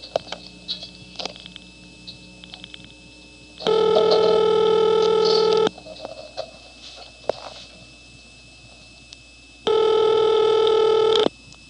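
Telephone tones sound during dialing for directory assistance: two long, steady, buzzy tonal bursts of about two seconds each, separated by a quieter gap with faint clicks and background noise.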